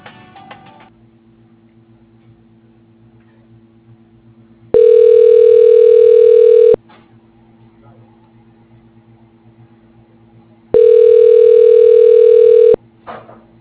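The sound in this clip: Telephone ringing tones sound while a call transfers to voicemail: two long, loud, steady tones of about two seconds each, separated by several seconds of quiet over a faint low hum.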